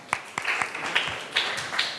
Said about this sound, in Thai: ปรบมือให้กลุ่มที่3หน่อย